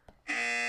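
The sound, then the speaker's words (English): A game buzzer in a lyrics quiz sounds: after a brief soft click, a loud, steady, harmonically rich electronic tone starts and holds unbroken to the end. “This is the sound of the buzzer.”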